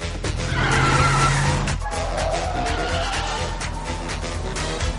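A car skids around a corner with a squealing screech of tires in the first two seconds, then a steady, loud engine roar continues alone.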